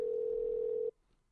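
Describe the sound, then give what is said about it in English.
Ringback on an outgoing phone call to a surprised recipient: a steady, even electronic tone holds for under a second, then stops abruptly, leaving near silence. “So we're calling a phone, so you might hear ringing.”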